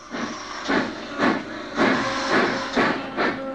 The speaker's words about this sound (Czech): ani se nestačil rozhlédnout a mašinka se sama rozjela.